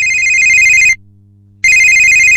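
A telephone rings for an incoming caller on a call-in line. Two loud electronic trilling bursts are split by a short silent gap, and the second ring is cut off at the end.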